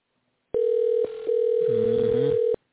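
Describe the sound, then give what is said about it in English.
A telephone call rings out unanswered as a single steady, buzzy electronic tone lasting about two seconds, dipping briefly in the middle before continuing and cutting off. “He's not going to answer the phone.”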